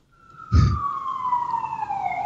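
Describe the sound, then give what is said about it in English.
An emergency vehicle siren wails as one sustained tone that slowly falls in pitch, with a short low rumbling burst near its start. “Sorry for the sirens.”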